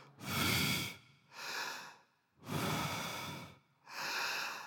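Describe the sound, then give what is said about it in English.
A person breathes in and out in four slow, loud, breathy strokes, with long and shorter breaths alternating and short silent pauses between them. “We breathe out and we breathe in, right?”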